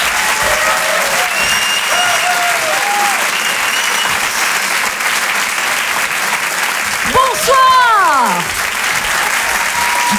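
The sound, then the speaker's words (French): An audience at a French stand-up comedy show applauds and cheers as a comedian is introduced. Dense, steady clapping continues throughout, with scattered whoops and higher shouts rising above it near the end. “Je vais vous demander de faire un maximum de bruit, d'être aussi chaleureux pour la prochaine, même si c'est une mère indigne. Et oui, elle s'appelle Olivia Moore. S'il vous plaît, un maximum de bruit pour elle.”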